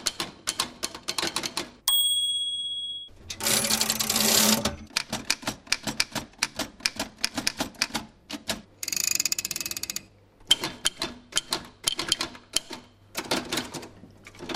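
Early antique typewriters from various makers in a typewriter museum clatter in rapid bursts of keystrokes separated by short pauses, with a bright bell ding and a couple of longer, harsh rasping mechanical passages among the typing.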